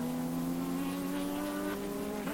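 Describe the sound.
GT3 race cars at Le Castellet drive through a long right-hander into a tight left-hander, their engines giving a loud, sustained, buzzing drone with strong steady tones throughout.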